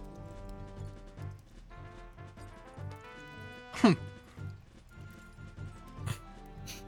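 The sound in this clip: Horse hooves clip-clop at a steady walking pace, making regular soft thuds under a sustained musical tone, with a brief swooping sound partway through.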